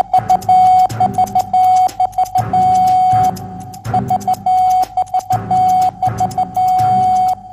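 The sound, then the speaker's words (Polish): Morse code call sign AXL, sent from a radiotelegraph station: a steady mid-pitched tone keyed into short dots and longer dashes, the same sequence repeating several times with brief gaps between groups. “za odtworzenie w alfabecie Morsa sygnału wywoławczego AXL.”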